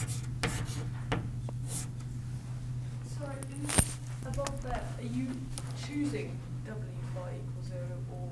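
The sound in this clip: Writing on a board during a physics lecture: faint, intermittent scratching and scraping strokes over a steady low hum, with a voice speaking now and then.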